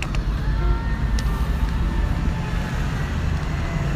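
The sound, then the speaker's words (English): A bus passing by on the road gives a loud, steady low rumble that stays broad and continuous for the whole clip, with no sharp peaks and no clear talk. “A bus passing”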